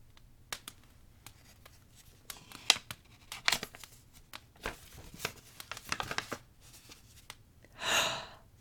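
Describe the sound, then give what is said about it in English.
A paper envelope is torn open, giving faint, crackly crinkling with many short rips and rustles and a longer tearing burst near the end. “You said it was a lot, but this is just an envelope. Okay, I'll open it.”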